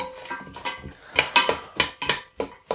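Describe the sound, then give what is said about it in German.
Stirring vegetarian goulash seasoned with paprika powder in a pot, the spoon making a run of quiet clinks and scrapes against the pot that grow sharper and more rhythmic toward the end. “So, ein bisschen umrühren.”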